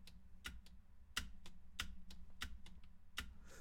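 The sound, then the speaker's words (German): Repeated presses on a computer keyboard's faulty space bar give many sharp, faint clacks at an uneven pace over a low, steady hum. “Bro, meine Leertaste funktioniert nicht. Ich drück sie.”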